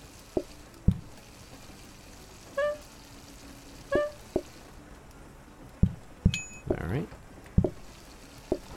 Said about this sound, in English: I'll clean that plate. Doing the washing up.